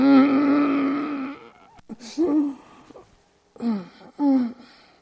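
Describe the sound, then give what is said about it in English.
A voice imitates a groaning sound. One long drawn-out low moan comes first, then a few shorter groaning bursts follow, separated by brief pauses. “That's a weird sound. Groaning. Look it up. Groaning, and it has some weird sound. I just made up a sound.”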